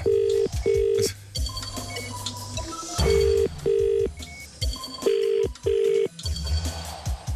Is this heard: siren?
no